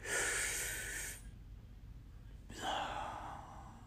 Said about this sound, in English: Somebody just take a deep breath with me. That's life. Take another deep breath.